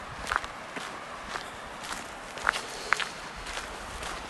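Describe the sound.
Footsteps of someone walking through a riverside campground, with faint, evenly paced steps scuffing on the ground. A few sharper, louder steps fall in the second half against a quiet outdoor hiss.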